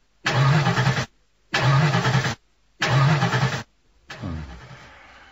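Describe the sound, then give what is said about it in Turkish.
A stalled car engine is cranked by its starter in three separate attempts, each grinding burst under a second long with short silences between, followed by a quieter, fading rumble. “Motor tekliyor. Ne oldu ki acaba? Hayda. Motor durdu. Arıza mı yaptı araba? Herhalde. Dur bakayım. Çalıştırmaya deneyeyim.”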